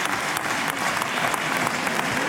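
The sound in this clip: Applause in the Portuguese parliament during a debate with the prime minister: a dense, even patter of many hands clapping at steady loudness without pause.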